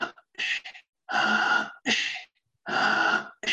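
Deep, rapid breaths in a breathing exercise, with several long, rushing breaths at a quick, even pace and short silent gaps between them. No one speaks.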